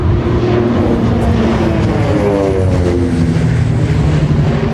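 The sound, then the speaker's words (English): A World War II Canso aircraft flying over a historic coastal fort during a D-Day anniversary tribute, producing a loud, steady engine drone with tonal hums that slide downward in pitch as it passes. “A Second World War Canso aircraft flies over Vancouver Island's Fort Rod Hill National Historic Site”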